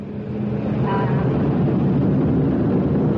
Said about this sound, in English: now excitement is high as the aircraft surges forward along the runway.